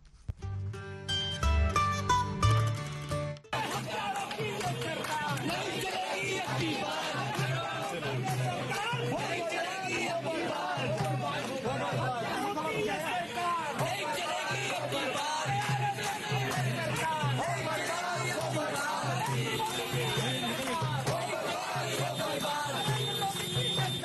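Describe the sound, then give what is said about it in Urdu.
Crowd noise at protest demonstrations in Kashmir: a dense, steady mass of shouting and chanting voices runs for about twenty seconds after a brief tonal opening. “تو ایک جھلک یہ بہت سے مظاہروں کی تھی.”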